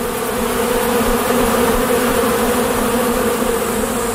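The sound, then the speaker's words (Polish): Honeybees buzz at the entrances of four beehives, a dense, steady drone with a low hum running unbroken at an even loudness for the whole clip. “Siedzimy sobie jakieś metry od wylotów z czterech uli. Z boku. Na wprost nie można, bo sprawdzą intruza i mogą zaatakować.”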